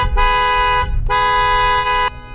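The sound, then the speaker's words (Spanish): A taxi's car horn honks in two long, steady blasts separated by a brief gap, loud and alone with no voices. “El claxon despierta a Virginia.”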